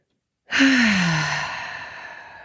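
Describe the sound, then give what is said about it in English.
A single forceful exhale empties the lungs in one long sigh-like breath that starts abruptly, then trails off gradually. A brief low voiced tone at its start drops slightly in pitch. “It's like you empty your lungs of air,”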